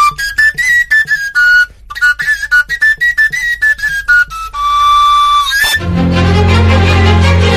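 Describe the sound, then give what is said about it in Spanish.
Whistle made from a hollow elder branch plays a melody of many short, breathy high notes, then holds one longer steady tone before a dense, full burst of sound abruptly takes over. “Alguno tan sencillo como una rama de saúco hueca que suena así.”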